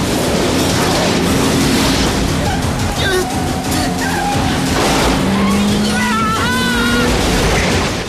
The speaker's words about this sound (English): The car skims a wall, kicking up sparks as it goes.